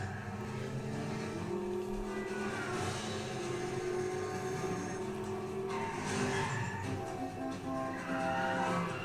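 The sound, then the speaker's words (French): A car fitted with a nitrous oxide kit roars steadily while its tires squeal and skid, a loud, continuous, rough mix of engine and tire noise with no voices. “Ça fait longtemps qu'on n'avait pas vu un Kitnos utilisé sur une bagnole.”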